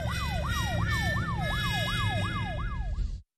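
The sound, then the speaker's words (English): A police car siren wails in a fast, steady cycle of rising and falling whoops, about nine in a row, loud and continuous until it cuts off abruptly. “What's that sound? That, Anna, is the police.”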